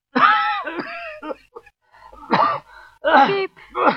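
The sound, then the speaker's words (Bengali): Someone in the next room coughs badly, in harsh, raspy bouts that come again and again with short gaps, loud and strained. “কে এমন কাশছে কোথায়? মনে হয় পাশের ঘরের কেউ সাংঘাতিক কাশছে এমন।”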